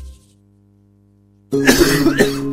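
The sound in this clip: Harsh coughing in a public health announcement about tuberculosis symptoms: a short fit of a few rough, loud coughs bursting in after a brief fading tone and a moment of silence.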